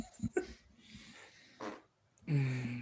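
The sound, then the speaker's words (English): A faint fart at a meal table: a few short, soft, breathy puffs, then a longer, low, buzzy tone that holds steady at the end. “Was that a fart? It was not me.”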